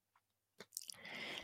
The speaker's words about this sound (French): Je bats, je coupe.